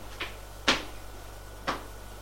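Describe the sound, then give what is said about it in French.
A door opens with three brief, soft clicks and knocks, the middle one sharpest, all faint over a low steady hum. “La porte s'ouvre.”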